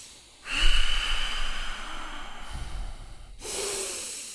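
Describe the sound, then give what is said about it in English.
Controlled breathing through the nose: one long, steady, airy inhale that lasts about three seconds, then a brief pause and the start of a firm exhale. The breath is loud and close, with no voices over it. “We'll go five controlled breaths with the nose.”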